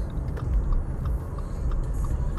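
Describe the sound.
Road noise from a car driving home: a steady low rumble and hum that continues unbroken, with no talking.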